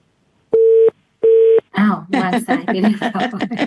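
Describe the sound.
A telephone line tone sounds after a call-in is cut off: two short, steady electronic beeps at the same mid pitch with a gap between them. A voice starts talking right after.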